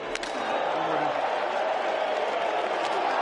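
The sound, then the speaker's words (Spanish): Loud crowd cheering at a tennis match while a player repeatedly throws his racket so it bounces off the court, heard as a dense, steady roar that holds throughout without clear breaks. “tiraba la raqueta rebotaba, volvía a coger la raqueta rebotaba, y mientras tanto el público estaba animándole a que siguiera haciéndolo. Atención al sonido.”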